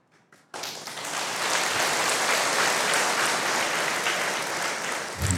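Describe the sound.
Audience applause at a Buddhist monk's talk, sustained dense clapping rising abruptly after a few faint taps and holding steady and loud for several seconds.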